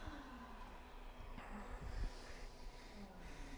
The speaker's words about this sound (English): Fingers to toes pose. Lengthen your spine. Breathe in. Bow forward.